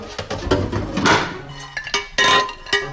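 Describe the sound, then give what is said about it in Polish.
Roasted food is tipped into a small bowl, making loud clattering rattles in uneven bursts, with hard clinks as pieces strike the dish. “Ja je przesypuję teraz do miseczki.”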